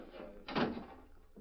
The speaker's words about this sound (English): Close that door.